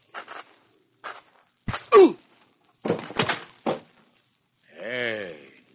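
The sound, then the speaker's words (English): Blows struck with a rifle butt: a few short dull knocks and scuffling thuds, one heavier impact near the middle, then a brief groan-like vocal sound toward the end. “Nice work. You know, for an archaeologist, you swing a pretty good rifle butt.”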